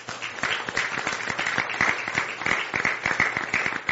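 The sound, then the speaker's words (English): Round of applause from a church audience: many hands clapping in a dense, sustained patter that stays fairly even from start to finish. “he deserves, at the very least, a round of applause.”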